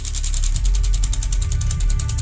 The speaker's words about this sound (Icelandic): Þá fór sjálfvirt flettiskiltið aftur á stað.